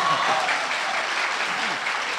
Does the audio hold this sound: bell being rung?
no